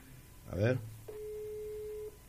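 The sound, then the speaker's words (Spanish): An unanswered telephone call ringing out, with one long, steady ring tone lasting about a second after a brief voice. “Ahí está, ahí lo estoy llamando yo al general Romero.”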